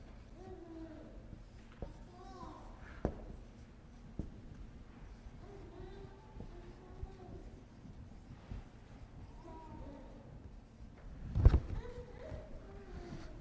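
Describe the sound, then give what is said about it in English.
Faint marker strokes on a board as a drawing is made, soft intermittent squeaks and scratches scattered across the stretch, ending with a louder brief knock near the end. “so I just want to write it up here as a little bit of a drawing. Just to help us understand.”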